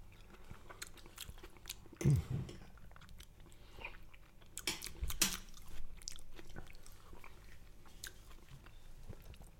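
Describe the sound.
Someone chews while tasting salsa, making faint, irregular chewing and crunching sounds. A few louder crunchy bites stand out, and no one talks.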